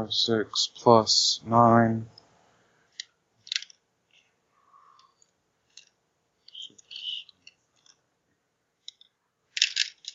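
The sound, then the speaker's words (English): Many dice rolled during a tabletop role-playing game, heard as scattered faint clicks and light rattles after a short burst of talk, with brief clatters spread through the quiet stretch. “Oh, there's a lot of dice I gotta roll.”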